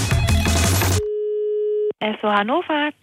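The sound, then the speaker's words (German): A single steady ringing tone of an outgoing call to an Esso petrol station in Hannover, a sustained hum lasting under a second, preceded by music and followed by a voice talking. “Ja, und wir rufen jetzt erstmal bei Esso an und müssen beichten.”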